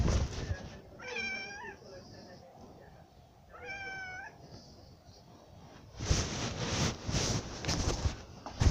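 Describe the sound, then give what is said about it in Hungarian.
A cat meows twice, each a clear, tonal cry a few seconds apart, over low background noise. Louder rustling and scuffing noise follows. “Be kell tenni a macskámat.”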